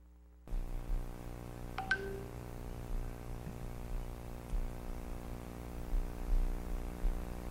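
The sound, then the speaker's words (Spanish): An outgoing telephone call is dialed: the line opens with a sudden low hum, a couple of brief beeping tones follow, and faint static and hum continue to the end. “Por supuesto, lo estoy llamando.”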